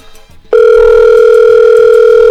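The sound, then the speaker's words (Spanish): An outgoing telephone call ringing out: after a short, faint lead-in, a loud, steady electronic ring tone starts abruptly and holds at an even pitch to the end. “Vamos a ver si tenemos oportunidad de que nos reciba la llamada.”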